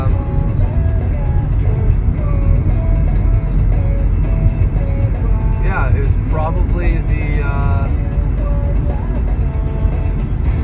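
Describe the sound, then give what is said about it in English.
A car on the road nearby: a loud, steady rumble of engine and road noise that runs throughout, while a person talks over it. “Saw the car slowing down there. I got scared.”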